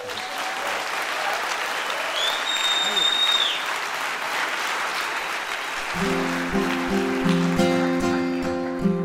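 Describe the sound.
An audience applauds to welcome a performer onto a concert stage, with dense sustained clapping, and instrument notes entering under the applause toward the end.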